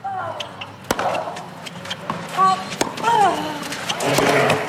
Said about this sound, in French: Ah, le son des balles sur la terre battue